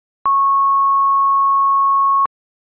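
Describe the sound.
A pure sine tone at the fifth harmonic, sounding the note C sharp, holds at one unwavering pitch for about two seconds, loud and clean, switching on and off abruptly with silence around it.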